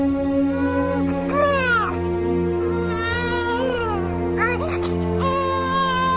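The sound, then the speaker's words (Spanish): A baby wails from inside a garbage bag. Several drawn-out cries rise and fall in pitch, separated by short breaths, over a steady low droning hum. “La abrió y en su interior se dio cuenta que era el llanto de un bebé.”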